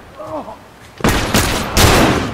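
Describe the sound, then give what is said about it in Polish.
Video game gunfire during a multiplayer shooter session. A short spoken voice comes first, then a few loud, harsh bursts of rapid shooting follow in quick succession and stay heavy to the end. “Nie, bo coś strzelają jeszcze.”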